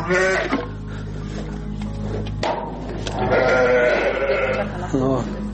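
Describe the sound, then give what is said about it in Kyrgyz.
Arashan breed sheep on a farm bleat loudly in wavering, nasal cries that overlap and continue throughout, mixed with people talking over a steady low hum. “Чүйдүн беш көрүк айылындагы Бакыт Асымбаевдин чарбасында арашан асыл тукумундагы 53 чакты кой бар.”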